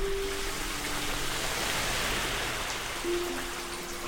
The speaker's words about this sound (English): This is the sound of a storm drain, an honest-to-goodness river running right under my feet.